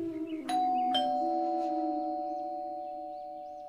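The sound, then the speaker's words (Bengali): A calling bell is rung at a door: two bright chime strikes in quick succession, then a long ringing tone that slowly fades, heard alone. “থমথমে মুখে calling বেলটা বাজালো”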